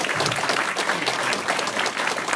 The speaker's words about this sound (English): Please stand up and have a better round of applause.